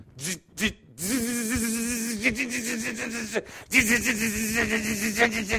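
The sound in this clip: A voice imitates welding two big lumps of steel. After a couple of short vocal bursts comes a sustained, buzzing harmonic drone in two long stretches with a brief break between them.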